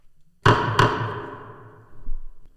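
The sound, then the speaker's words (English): A gavel bangs twice in quick succession, each sharp wooden knock followed by a ringing decay, and a softer low thud comes a little later. “Sound that gavel, dude. Law and order this moth.”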